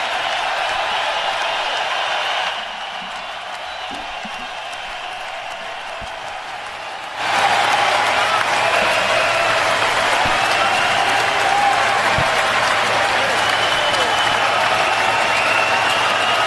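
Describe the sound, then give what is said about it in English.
An audience applauds during a tribute to basketball star Dirk Nowitzki, producing a dense, noisy wash of clapping. It sits lower for a stretch, then swells louder and holds steady to the end. “It just sounded like a bunch of clapping.”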